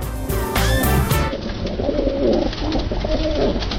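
Pigeons cooing from a keeper's large flock, low soft coos that repeat and overlap continuously throughout.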